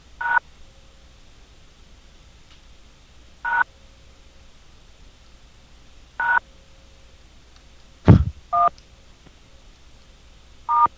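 Telephone keypad tones sound as a number is dialed: six short, clear beeps, spaced a few seconds apart over faint hiss, with a louder click accompanying one press near the end.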